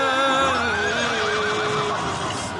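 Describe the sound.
A horse whinnies loudly in one long neigh, its quavering pitch trembling and sliding slightly lower toward the end, heard alone without voices.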